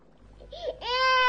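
A small child crying, a rising wail that swells into a loud, sustained, high cry held to the end.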